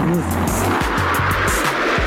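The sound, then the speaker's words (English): A rented futuristic air car fires up and blasts off with a loud, continuous roaring rush and a rapid series of low, pulsing engine bursts. “I fire up my rented air car, set a course for the digital circus, and blast out of there.”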